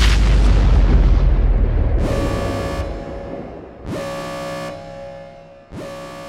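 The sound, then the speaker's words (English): Explosions from an attack hitting a space station: a heavy, rumbling boom fades away, then three loud, blaring horn-like blasts, each starting sharply and holding a steady tone. “It wasn't until multiple impacts shook the station that they realized it was no drill.”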